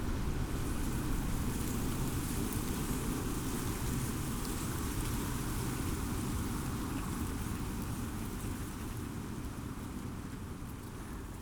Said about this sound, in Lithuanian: Į molą teliškoja vanduo